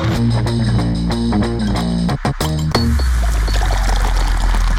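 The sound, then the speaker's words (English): A beer is opened and poured: a few short, sharp clicks, then a steady, loud fizzing and gurgling stream of liquid that continues to the end. “So let's crack open a beer and let's get this thing started.”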